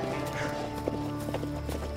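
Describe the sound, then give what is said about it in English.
Horse hooves clip-clop as the animal is ridden, a few sharp hoofbeats standing out over a steady low rumble. “All right, well, then get your ass on this horse.”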